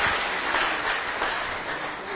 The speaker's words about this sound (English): Can we clap our hands now for Jesus?